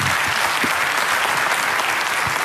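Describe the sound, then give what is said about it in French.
Dense applause from an audience greeting a man on a French entertainment show. The clapping stays steady and full for the whole short stretch, with no voices. “Christophe, applaudissements pour Christophe.”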